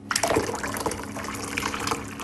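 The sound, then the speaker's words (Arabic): Hot water at 100 degrees Celsius being poured in a steady, continuous stream, with a full splashing rush that holds at an even loudness throughout. “هل سمعتم؟ حان وقت الماء الساخن بدرجة حرارة 100 درجة مئوية.”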